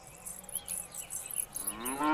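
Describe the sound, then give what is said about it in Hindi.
A cow moos briefly near the end in a low, rising call. Before it, faint, pulsing high insect-like chirps are heard, with no talk. “देख तो गाय शायद प्यासी है”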